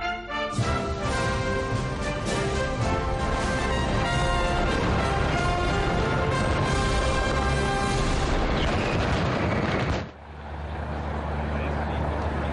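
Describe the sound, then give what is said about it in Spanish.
A mascletà firecracker display in Valencia, set off by a team from León: a dense, continuous barrage of loud bangs that roars for about ten seconds before dropping off sharply. “Y tenemos una mascleta que tenemos que disfrutar, que además vienen los amigos de León a dispararla.”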